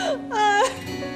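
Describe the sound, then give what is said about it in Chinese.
Person crying and sobbing: a tearful wavering voice with pitch rising and falling in a short whimpering wail, fairly loud, with no clear words spoken. “你别哭，我真的没事儿，我真的没事儿。你再哭都要把我弄哭了”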